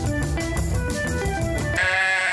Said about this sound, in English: Ladies and gentlemen, this is the Confused Goat